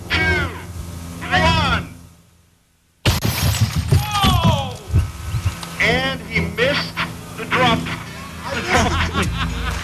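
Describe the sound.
A television dropped three stories lands with a sudden, loud smashing crash and shatter after a brief hush, with people talking before the impact and exclaiming afterward.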